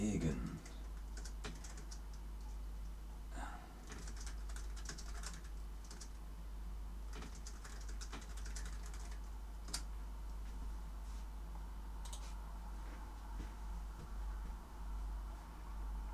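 Typing on a computer keyboard: many irregular, quiet key clicks in uneven bursts over a low, steady hum.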